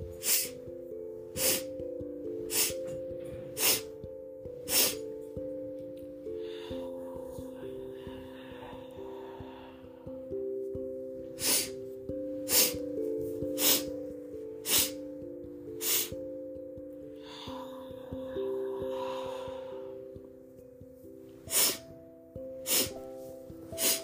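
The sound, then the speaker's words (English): Breath sounds from a breathing exercise, air drawn in through the nose and let out through the mouth in long exhales, hiss softly in two long stretches over calm meditation music with sustained tones and evenly spaced soft chime-like taps. “Let's begin inhaling 5 times through the nose and exhaling out the mouth in one long exhale.”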